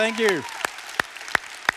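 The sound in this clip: Applause welcoming a speaker, heard here as four slow, evenly spaced hand claps that follow a brief spoken word.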